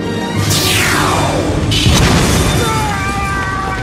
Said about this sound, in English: Well, actually, that was just footage from the movie Independence Day, but the real laser would be a lot like that.